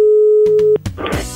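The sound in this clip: Steady, loud telephone tone as a call is placed, a single held pitch that cuts off abruptly into clicks and crackly line noise.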